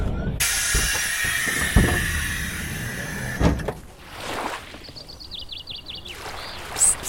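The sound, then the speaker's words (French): A TGV high-speed train arrives at Rennes station with a loud rushing hiss and a few thumps for about three seconds. It then drops to a quieter rumble carrying a run of short, high squealing tones. “Mesdames, et Messieurs, dans quelques instants, notre TGV desservira la gare de Rennes.”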